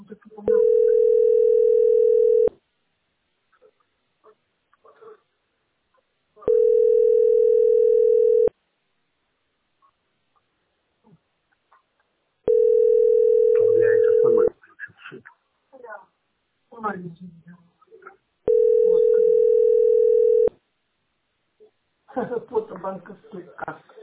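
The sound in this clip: A telephone line sounds a tone during a call: long, steady, even beeps repeat at regular intervals, four in all. Voices and scattered background noises fill the gaps between the tones.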